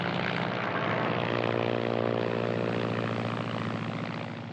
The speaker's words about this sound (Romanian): A aterizat! Extraordinar! A executat aterizajul ca un pilot încercat.